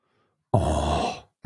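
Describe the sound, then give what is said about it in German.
A single drawn-out, voiced moan of exaggerated pleasure from a person eating dried mango, loud and alone, rising suddenly and fading after under a second. “Erotisches Stöhnen beim Verzehr von Mango.”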